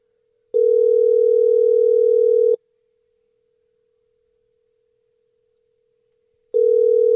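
Ringback tone of a telephone call to Eldoret, Kenya, ringing out unanswered: a steady, mid-pitched tone lasting about two seconds, a silent gap of about four seconds, then the tone starting again and cut off.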